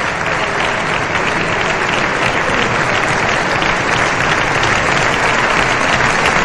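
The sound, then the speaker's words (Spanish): Sustained applause from a crowd at an official state ceremony, a dense, even wash of clapping that stays loud and unbroken for several seconds with no pauses or speech. “Estos aplausos suelen ser largos. Es muy común en estos protocolos.”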